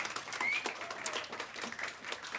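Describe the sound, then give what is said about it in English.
Applause at a ministry gathering: faint, scattered clapping from an audience honoring a longtime ministry partner, a soft, continuous patter of many hands. “Yeah, you can give a round of applause. That's good.”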